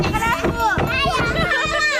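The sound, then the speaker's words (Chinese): Children playing with their lanterns, their lively overlapping chatter, squeals and shouts running continuously and fairly loud throughout. “嬉笑玩闹间，孩子们无暇顾及自己手里的灯笼。”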